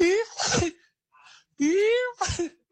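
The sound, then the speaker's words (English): A voice imitates a partner's sneezing with two mock sneezes. Each begins with a rising voiced intake and ends in a noisy burst, with a short faint sound between them. “The thing that irritates me the most with my partner is her sneezing. She'll be like,”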